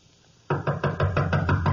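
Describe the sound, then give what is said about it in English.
Knocking on a door: after a moment of near silence, a quick, even series of firm knocks follows in a steady rhythm. “Just knock on the door and go in.”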